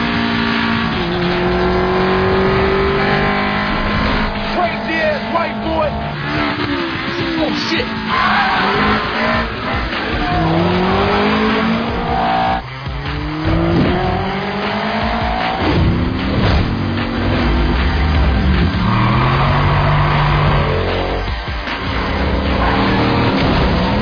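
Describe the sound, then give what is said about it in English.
A car driven hard, its engine loud and continuous with repeated rising and falling pitch as it revs, mixed with squealing tires throughout. “That's the Brian O'Connor cool driving right there, baby.”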